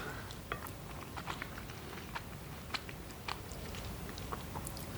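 Someone chews a mouthful of risotto, the rice still slightly al dente. Faint, irregular soft clicks and crunches come from the chewing over a low background hiss.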